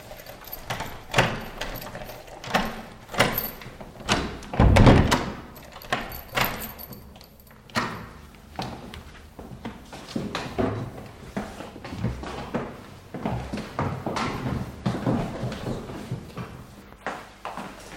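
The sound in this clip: High-heeled shoes click in many sharp, hard footsteps at a steady walking pace, moderately loud and irregular in strength, on the way to a third-floor door.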